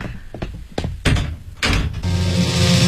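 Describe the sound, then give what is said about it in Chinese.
A room door is shut, heard as a few dull thumps and knocks of varying strength, the two heaviest near the middle, followed by a steady background hiss. “周圆圆刚关上房门”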